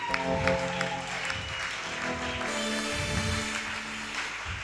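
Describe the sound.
Applause from a standing church audience at a youth gathering, a steady dense patter of clapping that continues throughout alongside sustained music and singing voices.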